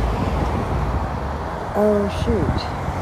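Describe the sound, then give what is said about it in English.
Street traffic with a bus approaching, a loud, steady low rumble running throughout. “the bus is coming, and, I'll make it.”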